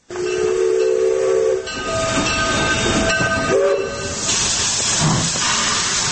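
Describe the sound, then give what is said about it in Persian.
A train runs on rails with a loud, continuous rumble and hiss of wheels and carriages. A sustained whistle-like tone sounds near the start, and the clatter shifts slightly in texture partway through. “بیشتر در گزارش جاوید نعیمی بشنوید که با صدای ریل آغاز می شود.”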